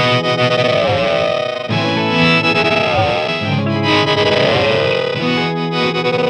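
A synth-like guitar tone from an Enzo effects pedal sustains loud, distorted and chorused, alone without voices. Its held notes shift in pitch across a continuous, dense wash of sound.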